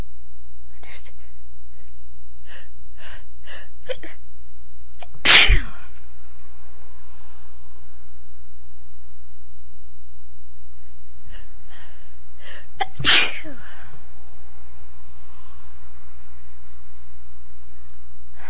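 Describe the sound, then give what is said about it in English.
Two sharp, explosive sneezes from a person sneezing repeatedly, well apart from each other, with soft breathy whispering sounds between them. “I just can't stop sneezing.”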